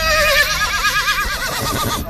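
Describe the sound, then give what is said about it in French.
A horse whinnies at an auction presentation ring where horses circle before buyers, a long, wavering, high neigh with a shaky, trembling pitch that carries on for most of the moment before fading at the end. “Là, nous sommes sur le rond de présentation des chevaux qui vont partir aux enchères. Ils sont en train de tourner en rond devant les différents acheteurs potentiels.”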